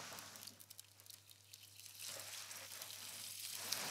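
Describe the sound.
Soft, steady sizzle of bacon sweating in a frying pan, a faint continuous crackle and hiss with no talk over it.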